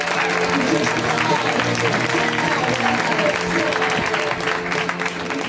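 A comedy show audience applauds a comedian with loud, sustained clapping that holds steady for several seconds, with some crowd noise mixed in.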